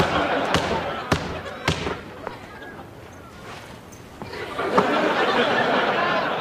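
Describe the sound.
A basketball being bounced and passed on a court: several sharp, hollow thumps spaced irregularly, with people chatting and laughing lightly around them.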